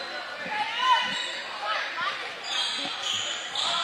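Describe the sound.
Basketball dribbled up the court at midcourt during the first half of a game, sharp repeated bounces in an uneven rhythm under continuous crowd chatter.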